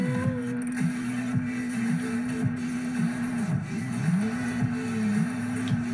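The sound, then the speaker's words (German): Engine drone of a video game car driving through the jungle: a steady, loud hum with a wavering, wobbling pitch that runs through the whole clip without talk. “So, fahren wir mal ein bisschen durch den Dschungel.”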